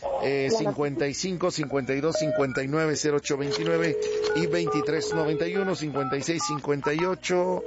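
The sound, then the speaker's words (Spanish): Touch-tone dialing of a telephone number to place a call for a serenade: a series of steady electronic keypad beeps of varying lengths, mixed with continuous talking throughout. “Órale, pues entonces, manos a la obra y marcamos, no nos cuelgues”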